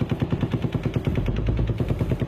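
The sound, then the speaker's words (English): An M240 belt-fed machine gun fires in a rapid, even stream of sharp, loud reports. The rounds keep a steady, rattling rhythm from start to finish. “Now you're going to hear an M240 belt-fed machine gun.”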